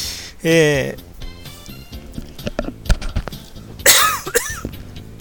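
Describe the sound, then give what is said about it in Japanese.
A person is caught by a sudden coughing fit and chokes, giving a few harsh, rasping coughs and throat sounds, loudest near the start and again toward the end, with some vocal sounds in between. “なんか急にむせてしまった。”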